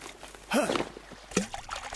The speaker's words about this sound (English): Tell me I'm dreaming and you did not just throw your mobile phone in the river.